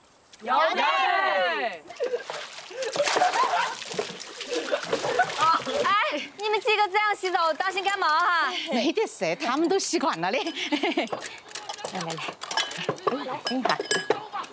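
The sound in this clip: Water splashes and sloshes as several people bathe, with occasional clinks, all mixed under near-constant lively talking and calling voices.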